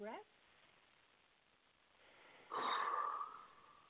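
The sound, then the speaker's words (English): A faint deep breath taken as a calming breath before a prayer. A brief vocal sound comes first, then a soft, airy inhale that swells near the end. “So let's take a couple deep breaths.”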